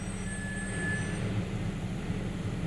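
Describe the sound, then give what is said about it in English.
Low, steady engine rumble of a big fire truck passing, a constant heavy drone with faint thin tones above it and no clear rise or fall. “What the fuck is that? Just a big truck. Fuck, not today, man. Fire truck.”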